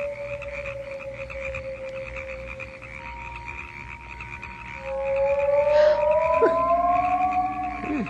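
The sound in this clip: Frogs croak on an island in a sustained chorus that turns louder in the second half, threaded with drawn-out, pitched calls and no talking.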